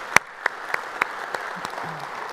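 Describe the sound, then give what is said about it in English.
A church audience applauding produces sparse, separate hand claps, with one sharp loud clap first and then softer, scattered claps that thin out. “you guys here at North Garnett, put your hands together and welcome them to our conversation we're going to have around God's Word.”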